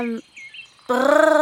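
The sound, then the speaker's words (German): A voice imitates elves flying, first with a few thin, high whistling chirps, then with a sustained, buzzing vocal hum that wavers slightly. “Wie hört es sich gleich wieder an, wenn Elfen fliegen? Also ich würde sagen, so,”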